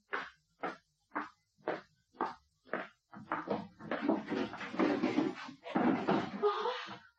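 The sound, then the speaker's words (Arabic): Knocking on a home door in a radio drama: six evenly spaced, firm knocks, followed by a longer stretch of louder, denser sound. “قومي يا اختي افتحي شوفي مين بيخبط.”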